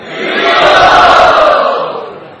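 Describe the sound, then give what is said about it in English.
Devotees cheering with joy, a brief roar of many voices that swells quickly, holds loud for a moment, then fades away. “And all the devotees cheered with joy.”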